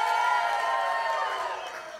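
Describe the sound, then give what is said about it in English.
A crowd cheers and whoops for the Cincinnati Bengals before a game against the Los Angeles Rams, a dense, sustained roar of voices that tapers off slightly toward the end. “How about how many people are cheering for the Cincinnati Bengals?”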